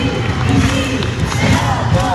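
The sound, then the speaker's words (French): A crowd cheers at a women's handball match, a loud, dense roar of shouting voices that surges and holds steady for the whole stretch. “Il faut attendre la sixième minute pour que le BHNM marque son premier point. Avec elle, le public se réveille, prend espoir.”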